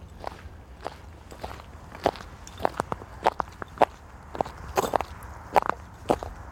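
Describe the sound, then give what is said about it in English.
Footsteps crunch along a walking route in boots fitted with Norwegian foot spikes. Sharp, gritty scraping impacts fall in an irregular walking rhythm, moderately loud against a quiet background, with no talking. “Hear the difference? Norwegian foot spikes. Swear by them.”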